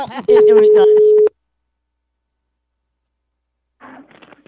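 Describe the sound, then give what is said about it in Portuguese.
A single ringback tone of an outgoing telephone call, one steady mid-pitched beep lasting about a second with voices underneath, then a long silence before a brief voice. “Eu vou ligar agora pra Ondina.”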